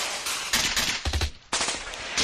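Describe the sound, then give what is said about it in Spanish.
Gunshot sound effect: rapid volleys of harsh, crackling shots fire in quick succession, loud and dense, broken by brief pauses between bursts. “Hablamos de disparos porque allí ocurrió un hecho terrible.”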